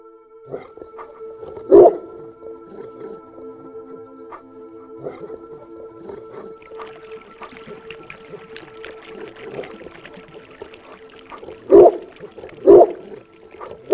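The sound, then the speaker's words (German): Deep barking from a large, powerful grey dog with pointed ears, heard at dusk from a garden. A few loud, low barks come early, then a quiet stretch, then two more barks close together near the end. “Als Antwort erscholl in der Dämmerung tiefes Gebell, und aus dem Garten kam ein mächtiger Hund mit spitzen Ohren, grauem Fell und einem Halsband mit Goldbeschlägen auf den Balkon gesprungen.”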